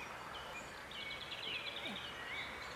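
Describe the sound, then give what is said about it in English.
Birds singing outside after dark: faint, high chirps and short trills over a steady background hiss, scattered across a few seconds. “Hear the birds?”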